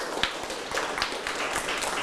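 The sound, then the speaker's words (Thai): Students in a math classroom clap for a classmate who answered correctly, producing scattered, fairly faint hand claps in an uneven patter with a few sharper individual slaps. “ถูกต้องไหมครับถูกต้องปรบมือให้เพื่อนด้วยครับ”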